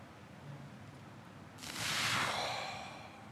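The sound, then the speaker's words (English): A huge, deep breath drawn in during a wellness session: quiet at first, then a breathy rush begins partway through, swells and eases slightly toward the end. “I want you to take another huge, big, deep breath in.”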